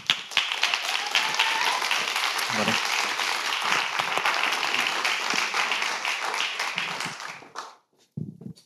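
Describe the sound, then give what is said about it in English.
Audience applause at a church gathering welcoming a speaker to the stage, dense sustained clapping from many hands for about seven seconds before fading away to quiet. “And would you do me a favor and give him a warm awakening welcome?”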